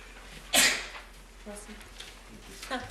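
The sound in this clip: A single sharp, loud sneeze bursts out above low background noise, followed by quieter voices talking.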